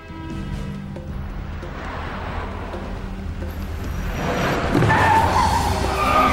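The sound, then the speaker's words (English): A car accelerates hard, its engine rumble swelling and building, then tires screech briefly near the end as it swerves around a corner after stopping at a junction. “Suddenly, Jake floors it and screeches around the corner.”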